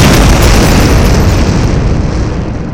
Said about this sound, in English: as the X-Men approach the lab, they look on in shock as the building goes up in a brilliant blast of light